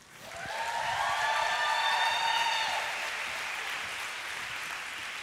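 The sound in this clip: Audience applause welcoming a speaker to the stage, a dense, steady wash of many hands clapping that swells quickly, holds loud for a couple of seconds, then eases to a softer, sustained level.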